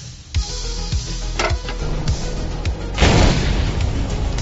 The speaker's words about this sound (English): We are gonna need more firepower to get through this roadblock. Michael, to use the main gun, you need to manually load the round.